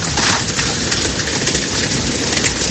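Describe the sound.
Heavy rain pours down during a Madrid storm that also brought hail. A dense, loud, unbroken hiss of drops with fine crackling patter holds steady throughout.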